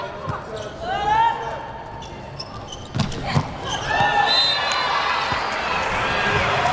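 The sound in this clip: A serve is struck in a volleyball match, with a sharp hit partway through, over steady crowd noise and cheering in an arena while commentators talk throughout.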